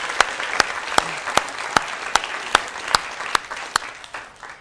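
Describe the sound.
Applause from a church audience welcoming a guest: sparse, evenly spaced claps ring out one after another over a low background hiss.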